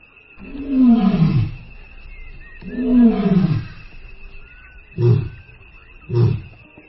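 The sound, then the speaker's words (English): Lion roaring: two long, deep, loud roars followed by two shorter grunting calls, each separated by brief pauses, with no voices present. “And it comes from an animal that's intertwined with human history, Panthera leo.”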